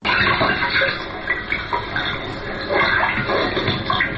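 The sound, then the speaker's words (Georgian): Running water used as a sound effect in a shadow theatre performance: a steady, fairly loud wash of splashing and gurgling that continues through the whole clip without pause. “ეკრანზე დაფიჩნდება, წყალი ხმაურს იწყებს, ხე დგას, სპექტაკლი გრძელდება.”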